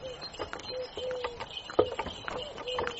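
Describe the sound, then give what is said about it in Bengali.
Hooves of a horse pulling a carriage away from a station clip-clop in an uneven rhythm, a series of many soft hoof strikes over a light background murmur. “স্টেশনে ঘোড়ার গাড়ি অপেক্ষা করছিল, তাতে চড়ে আমরা রওনা দিলাম।”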